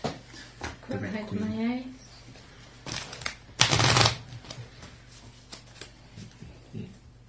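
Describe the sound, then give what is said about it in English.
A deck of playing cards with jokers being shuffled during a Runepunk tabletop game session. Brief rattling, flapping bursts come amid people talking. “Cards back. I need to shuffle them because we've got jokers out.”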